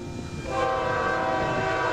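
A train runs on a railway line about nine kilometres long that carries new equipment from the factory to a test range. A loud, steady rumble swells, then a sustained horn-like tone joins partway through.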